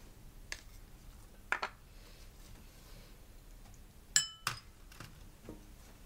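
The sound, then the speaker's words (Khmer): Utensils clink faintly against a pot or pan while vegetables, chili and tomato, are stirred together during cooking: a few sharp, light clinks at irregular intervals over a low, steady background. “យើងចាប់ផ្ដើមកូរចូលគ្នាបន្តិចម្ដងទៀតបន្ទាប់មកយើងដាក់មីសួរចូល”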